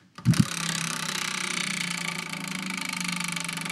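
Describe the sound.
A prize wheel spins after a short thump at the start, then gives many rapid, even clicks that keep a steady rhythm to the end.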